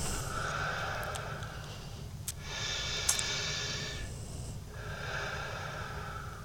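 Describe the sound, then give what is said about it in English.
Slow, deep breaths in and out during a guided relaxation exercise, each a long, steady airy rush with short pauses between, fairly loud and alone with no talk. “Just want you to take three deep breaths in and three deep breaths out.”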